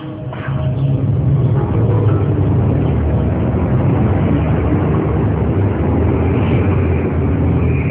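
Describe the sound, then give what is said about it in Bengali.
A hearse's engine runs as it is driven, a steady, loud, low rumbling drone that carries on without clear breaks or changes. “মাগরিবের পর লাশ দিয়ে রওনা হলো আজাদ, প্রথম বারের মতো লাশের গাড়ি চালাচ্ছে সে।”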